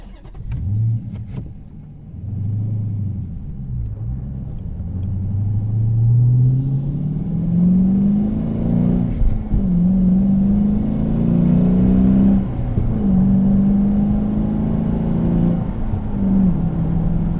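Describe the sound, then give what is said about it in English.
A 2013 Dodge Challenger SRT Core with a Barton shifter accelerates from a standstill to 50 mph. The deep, rumbling engine note climbs repeatedly and drops at each gear change, staying loud and steady throughout. “All right, that was a 0-50 acceleration.”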